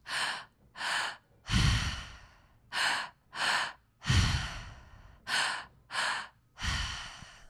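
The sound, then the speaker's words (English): Rhythmic breathwork breathing, in three repeating rounds of two short, airy breaths followed by a longer, fuller breath with a low rumble. Clear and steady, with no talking. “just focus on the sounds of your breath. Feeling the breath move throughout your body”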